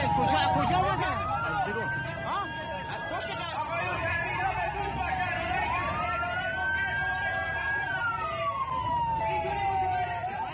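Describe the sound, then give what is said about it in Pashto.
Wailing ambulance siren from vehicles carrying dozens of wounded to nearby hospitals in Iran after a deadly attack, its pitch sweeping up and down in slow cycles, continuous over steady background chatter and voices. “د ایران تلویزیون هغه امبولانسونه ښایي چې په لسګونو زخمیان نږدې روغتونونو ته انتقالوي.”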